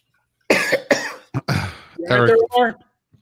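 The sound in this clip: Coughing and throat clearing: a few rough, voiced bursts in quick succession, loud and separated by short gaps, with one faint click at the end.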